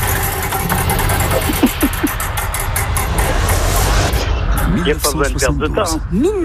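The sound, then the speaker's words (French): A game-show wheel spins with a dense, rapid ticking clatter that runs steadily for several seconds, with people talking over it, especially toward the end. “La roue qui part et vous me dites stop quand vous voulez.”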